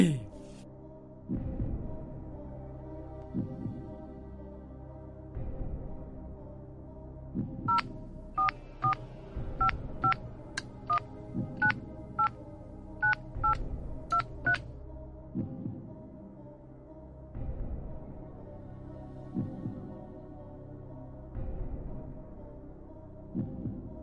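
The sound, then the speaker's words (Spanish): Touch-tone keypad beeps as a telephone number is dialed: a rapid run of many short, evenly spaced tones over a steady low throbbing hum, with quieter stretches of that hum before and after. “Vamos a hacer la llamada número 3.”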